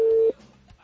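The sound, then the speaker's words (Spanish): A telephone call tone, a single steady mid-pitched beep lasting about a third of a second before cutting off, followed by faint low hum. “Nos iba a mandar al buzón y ya está sonando de nuevo.”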